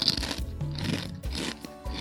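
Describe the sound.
Loud, crisp crunching of fried chicken skin being bitten and chewed, the chicken coated in a spicy, sour, lime-scented seasoning powder. Several irregular crunching bursts follow one another, with no talk.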